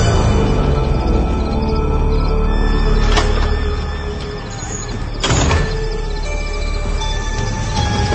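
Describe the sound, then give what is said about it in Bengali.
A house door being unlocked with a key and opened, heard as two sharp clicks a couple of seconds apart over a steady noisy background. “চাবি দিয়ে ঘরের দরজা খুলে ঘরে ঢোকার সময়”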